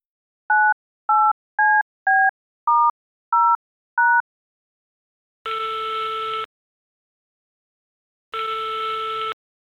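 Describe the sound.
Telephone tones while calling a support line: seven short touch-tone beeps in quick succession, then two longer ringing tones about a second each with a pause between them, loud and without voices.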